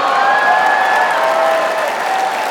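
Audience applause at a radio show fills the whole clip, a steady, dense wash of many hands clapping at an even loudness with no breaks.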